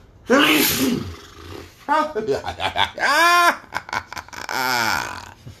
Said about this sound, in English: This episode, I gave you sneezes. That's COVID-free sneezes.